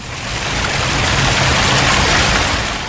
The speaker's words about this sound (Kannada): ಹೌದೌದು, ಮಳೆ ಜಾಸ್ತಿ ಆಗ್ತಾ ಇದೆ. ಮಿಂಚು ಗುಡುಗು ಕೇಳಿಸ್ತಾ ಇದೆ.